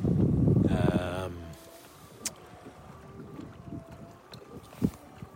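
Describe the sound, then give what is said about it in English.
Wind blows outdoors on a foggy morning, a southerly that had been gusting near 16 to 17 knots and has now eased. It is a faint, steady rush with a low rumble that is strongest at the start. “Big wind from the south. It's calmed now a bit, but when I first got up this morning, it was kind of pushing, I'd say 16, 17 knots.”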